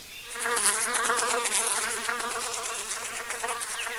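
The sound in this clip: Bumblebees buzz among apple blossoms in a steady, fairly faint drone. The tone wavers slightly as the insects move, with no voices.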